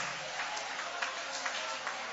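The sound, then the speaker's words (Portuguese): An audience applauds during a church service, a dense, even wash of clapping with faint voices mixed in. “Levanta a mão e vai aplaudindo. Vai aplaudindo, você terá a presença.”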